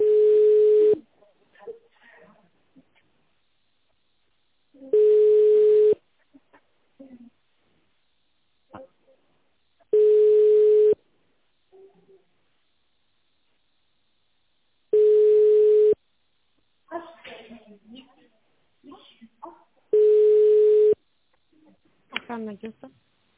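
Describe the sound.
Telephone ringback tone while a call is transferred: five steady, evenly pitched beeps of about a second each, repeating every five seconds, with faint scattered noises in the gaps.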